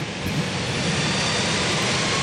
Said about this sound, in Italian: L'accensione dei motori. Iniziano. Ed ecco il rullaggio che è partito